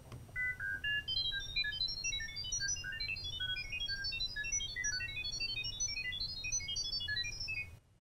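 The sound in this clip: Data tones played through laptop speakers to a device waiting in listening mode. A dense stream of short, high-pitched tonal blips hops quickly between pitches for about eight seconds over a low hum, then stops abruptly.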